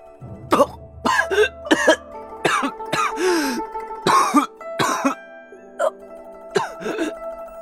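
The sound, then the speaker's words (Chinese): A person coughs and chokes in a rapid series of loud, harsh, spluttering coughs. Strained throat-clearing and gasping sounds come between the bursts, which arrive at an irregular rhythm. “然而这样的较量却被一阵咳嗽声惊动了，那咳呛的人好像要断气似的，光凭声音都能听得出那人狼狈。”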